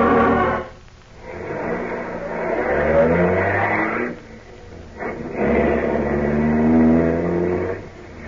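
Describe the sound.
A car engine drives and revs in two long surges split by a short dip, a loud mid-pitched hum with tones that climb and settle, without voices.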